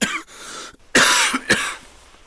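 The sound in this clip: Harsh, chesty coughing from a person with flu: several loud coughs in quick succession, the strongest two close together in the second half, with no talk.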